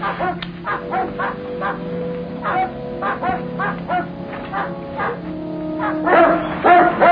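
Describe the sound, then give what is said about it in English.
Dogs bark in a rapid, uneven run of sharp yelps, with higher yips and whimpers mixed in. The barking grows louder and more frantic toward the end. “What's the trouble with the dogs, Jim? They don't bark like that for nothing, Mr. Jodd. Something must have frightened them mighty bad.”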